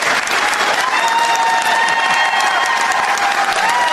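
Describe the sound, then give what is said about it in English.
A crowd cheers and applauds at a bill signing in Washington state: loud, continuous dense clapping mixed with whoops and cheers that holds steady throughout. “See how happy they are in the state of Washington? You know what they're cheering?”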